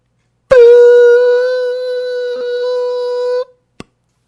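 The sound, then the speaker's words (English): A misinformation edit sound effect: a loud, harsh, buzzing horn-like tone held steadily for about three seconds, cutting off abruptly, then a single short click. “So that annoying sound you hear is the misinformation edit sound,”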